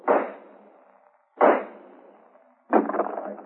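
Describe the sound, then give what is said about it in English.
Three gunshots blast off a door lock in a radio drama. Each is a sharp, loud crack with a short decaying tail, spaced roughly a second and a half apart. “All right, Mike. Shoot the lock off.”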